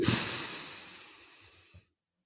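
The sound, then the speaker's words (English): A deep breath: a long, airy, hissing exhale that starts strongly and fades gradually over nearly two seconds, ending with a soft puff. No speech is heard. “Take a deep breath in.”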